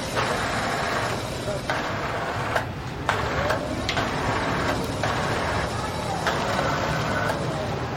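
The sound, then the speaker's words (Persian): Several sewing machines run in a room where a group of women are working, giving a continuous loud mechanical whir with short breaks in the stitching. “میره اتاقی که چند تا زن با چرخ خیاطی کار میکنن.”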